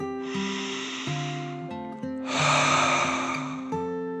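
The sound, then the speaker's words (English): A storyteller imitates a dragon's deep breath: a long, airy, hissing breath in, then a stronger breath out, over soft sustained musical notes. “Then the dragon took a deep dragon breath in and out.”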